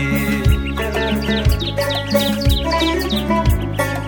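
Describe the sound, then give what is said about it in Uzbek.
A nightingale sings in a spring garden, quick bright chirps and trills repeating over music with a steady low beat that thumps about once a second. “bahar kelsa boshlanar bog'da bulbul xonishi”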